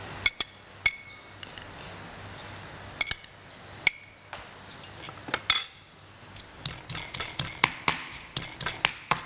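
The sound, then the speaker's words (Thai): A pestle pounds garlic and bird's eye chillies in a mortar for a yam salad dressing. Many sharp clinking knocks come at first sporadically, then in a faster, steadier rhythm toward the end. “ก็โขกกระเทียมอาจจะสับพริกขี้หนูแต่อันนี้ใช้โขกให้เข้ากันนะคะทำน้ำยำ”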